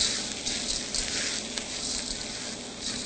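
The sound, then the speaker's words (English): Green split peas are stirred in a cooking pot with a continuous bright sizzle and soft scraping that stays steady and fairly loud from start to finish. “And now the green split peas. And if you don't have green, you can use any color split peas for this. And stir that around.”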